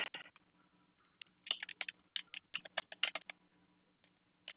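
Typing on a computer keyboard, faint and irregular, with quick clusters of clicky keystrokes separated by short pauses.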